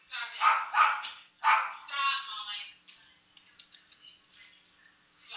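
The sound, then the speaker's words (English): A dog barks in the background, with a few loud, harmonic barks in quick succession followed by fainter, scattered short sounds. “Excuse the barking dog in the background.”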